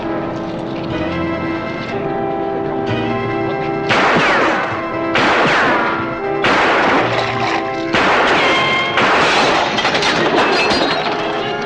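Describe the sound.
Gunshots ring out as five loud, sharp bangs in quick succession, each a short blast over a steady musical backing.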